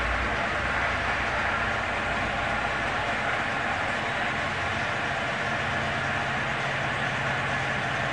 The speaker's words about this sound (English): Now we're passing that train. So there's the engine